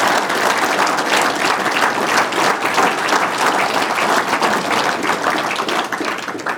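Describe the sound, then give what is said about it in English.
An audience at the Great Yorkshire Showground applauds to welcome a farming question-time panel: a sustained, dense wash of clapping from a large crowd that holds steady for over six seconds. “Ladies and gentlemen, please put your hands together and give our panel a big Yorkshire welcome.”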